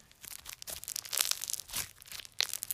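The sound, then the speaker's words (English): Slime being squished and stretched for ASMR, giving a run of sticky, crackling squelches in irregular bursts, some louder than others, with no talking. “here's some ASMR. I have a different slime now.”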